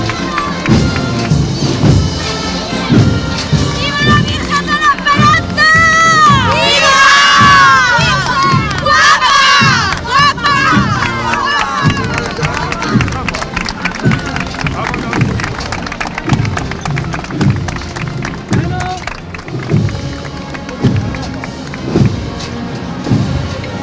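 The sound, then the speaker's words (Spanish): A street crowd gives a loud, sustained ovation of cheers and shouts as a green-canopied Holy Wednesday procession float passes along a street in Jaén, with voices rising and falling without pause throughout. “rompe el palio, este precioso palio verde, verde esperanza, en esta calle Bernabé Soriano, despertando la ovación de todas las personas que aquí se encuentran.”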